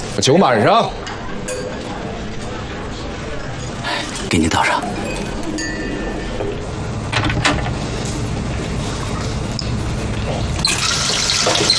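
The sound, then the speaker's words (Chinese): Liquor pours into glasses with light clinks of glass, amid people talking. “坐下喝酒，这是王副站长的命令，必须执行。坐下。我去趟洗手间。你没事吧？我没事。陪好了，酒满上。 给您倒上。”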